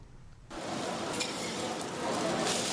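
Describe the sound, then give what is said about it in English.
A cook's meal sizzles on a hot griddle in a Taiwanese restaurant kitchen, with a loud, steady frying hiss that bursts in after a brief quiet moment and carries on unbroken. “The cook braves high temperatures as he prepares a meal on the griddle.”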